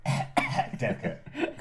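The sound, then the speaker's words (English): Coughing into a handkerchief, a consumptive-sounding fit of a few rough, muffled coughs in quick succession, moderately loud and with no talk. “Coughing into the hanky.”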